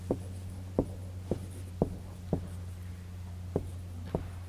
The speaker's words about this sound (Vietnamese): Mình viết chữ Tàu rồi mình giải thích cho các vị.